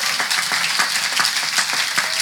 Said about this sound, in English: Keep clapping. Keep clapping. Everyone who's being baptized, come on up.